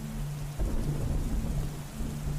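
Thunder rumbles during a thunderstorm with rain. A deep, low rumble swells in partway through and rolls on beneath a steady hiss of falling rain.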